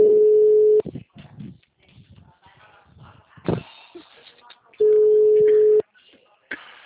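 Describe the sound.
Two loud, steady busy-tone bursts from a telephone after a dropped call, each lasting about a second and separated by several seconds of quieter, faint talk.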